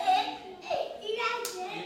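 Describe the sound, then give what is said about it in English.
A handful of young children play in the infant and preschool wing of an emergency children's shelter in rural Benton County. Faint child voices mix with a few light hand claps and taps. “A half a dozen children play in the infant and preschool wing inside the Northwest Arkansas Children's Shelter”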